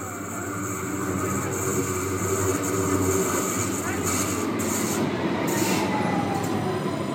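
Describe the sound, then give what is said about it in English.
Stuttgart subway train running: a steady, loud mechanical rumble of wheels and carriage with a thin, high whine held throughout and a few brief high squeals partway through. “that was the sound of one of the Stuttgart subway trains.”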